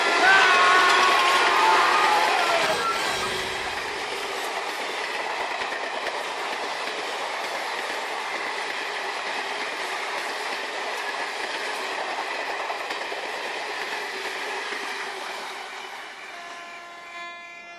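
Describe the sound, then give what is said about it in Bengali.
A train rushes along with a loud, continuous roaring rumble and rail clatter, slightly louder at the start and easing a little toward the end. “কান ফাটানো শব্দে চমকে গিয়ে পিছন ফিরে তাকাতেই দেখতে পেল এক চোখা দৈত্যের মতো তার দিকে ছুটে আসছে আস্ত একটা ট্রেন”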